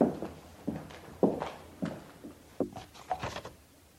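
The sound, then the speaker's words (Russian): A man's footsteps, several heavy, evenly spaced thuds in a slow walking rhythm, each a dull knock, with a quick cluster of steps near the end. “Услышав шаги Савельева, Ольга быстро положила путевку на место.”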